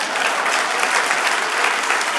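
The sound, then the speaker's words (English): An audience applauds with steady, dense clapping from many hands, holding at an even, fairly loud level throughout without any spoken words. “Give us a round of applause.”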